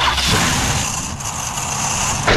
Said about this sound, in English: Nope, that's the sound of your car begging for retirement.